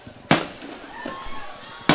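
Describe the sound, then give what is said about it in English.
Fireworks going off at a football homecoming game: two sharp, loud bangs about a second and a half apart over a constant murmur of background noise. “And there's the fireworks. Well, it is homecoming, you know.”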